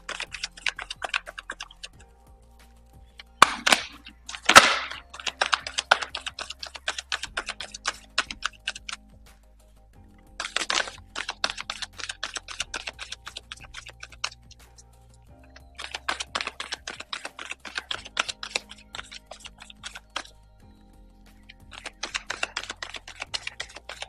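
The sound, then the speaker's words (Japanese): Playing cards being shuffled: repeated bursts of rapid, papery clicking and flicking separated by short pauses, with a couple of louder sharp snaps early on. “それではカードシャッフルしていきます。”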